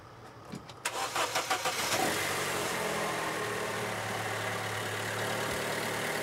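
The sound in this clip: A car's starter solenoid clatters in a fast burst of about six clicks because the battery is too weak to start the engine. A steady, engine-like drone follows, with no talk.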